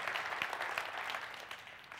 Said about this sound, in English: That's an applause.